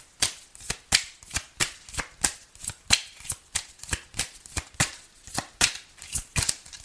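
Tarot cards being shuffled over and over in a steady, even rhythm, with many crisp riffling bursts of similar loudness following one another with no talk.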